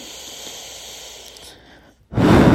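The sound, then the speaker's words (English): A deep breath is drawn in as a long, soft hiss. After a brief pause it is blown out in a loud, rushing exhale. “Take a deep breath and blow it out.”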